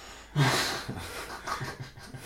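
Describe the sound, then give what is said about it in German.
A person draws one deep breath in, a breathy hiss that swells at once and slowly fades, followed by a few softer breathy puffs, all quiet. “Okay, einatmen. Nee, einatmen erstmal.”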